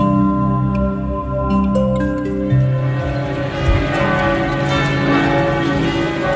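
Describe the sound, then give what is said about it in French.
Church bells toll a death knell across France for three victims of an Islamist attack at the Notre-Dame de l'Assomption basilica in Nice. Deep, loud, sustained ringing of layered, overlapping tones with no voices. “Jeudi dernier à 15h, le glas des églises de France a sonné pour les trois victimes de l'attentat islamiste de la basilique Notre-Dame de l'Assomption de Nice.”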